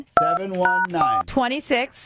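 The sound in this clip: Telephone keypad dialing tones: a few steady two-note beeps separated by short gaps, followed by a voice.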